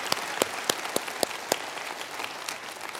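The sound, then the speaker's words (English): Church audience applauding to welcome the online viewers: a steady patter of many hands clapping at moderate volume, with a few louder, sharper claps standing out early on before the applause thins slightly. “I love to ask those of you physically here to put your hands together to welcome our online TV men audience just to say hello.”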